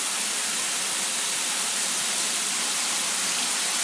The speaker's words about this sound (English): So I've got the shower spraying water into the bath, and here's some bubble bath.